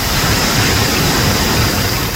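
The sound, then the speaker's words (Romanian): Heavy downpour with hail in a cloudburst over farmland at Glodeanu Sărat, a dense, loud, unbroken roar of rain and hailstones hammering down for the whole stretch. “Deja alem, iar s-a rupt nori. Altă repriză și cu piatră și cu de toate.”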